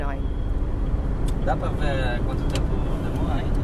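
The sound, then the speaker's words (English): Steady road noise of a car driving toward a small town in Brazil: a constant low engine and tyre rumble that stays even throughout, with voices talking over it. “We are driving to Novo Horizonte, a small town 250 miles from São Paulo, to visit Dona Cida.”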